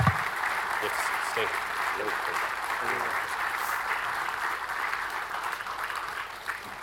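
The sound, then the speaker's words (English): Audience applause fills the whole stretch, steady dense clapping at an even moderate loudness that fades slightly at the end. “Can you give Ryan a big hand of applause for working through all of that?”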